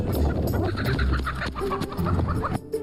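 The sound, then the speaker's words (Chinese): Chickens clucking, a flock kept by a chicken farmer in the deep mountains: dense, overlapping clucks and squawks from many birds, fairly loud and continuous, with no talking. “范海泉是深山里的养鸡大户，他常年一个人在山上与鸡群相伴”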